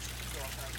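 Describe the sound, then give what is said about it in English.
Water leaking from an underground water pipe beneath a city street, heard as a faint, steady hissing rush over a low constant hum, with no distinct separate events. “That's the sound of one leak under Snyder Avenue in South Philadelphia,”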